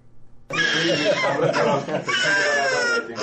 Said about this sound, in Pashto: دا د پولیو واکسین پر مهال د هغه ماشوم د جړا आवाज دی چې هر دوره د فراه شار کې د زرګونو نورو ماشومانو په ګډون د پولیو پر وړاندې واکسینېږي